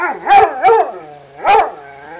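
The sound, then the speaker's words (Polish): A dog gives three loud, tonal bark-howls before a walk, each a rich harmonic yowl that swells and falls, with short gaps between and no voices. “Szczeka czasami? No tak, jak mamy zamiar iść na spacer, to on już wyje, a głos ma rzeczywiście.”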